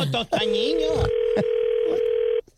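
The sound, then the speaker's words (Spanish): A steady telephone dial tone holds one unbroken pitch for about two seconds while a number is being called. Brief talk comes just before it, and faint voices sound over the tone. “Ok, mira, le estamos marcando”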